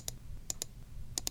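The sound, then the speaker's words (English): Five sharp, quiet clicks from a computer mouse, one alone followed by two quick pairs, over a faint low background hum. “The click of a computer mouse.”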